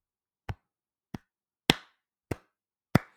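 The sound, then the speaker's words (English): Five sharp hand claps, unevenly spaced, each a bright smack that decays quickly. They are heard alone, with no talk. “if you're not watching, I was just doing a little clap.”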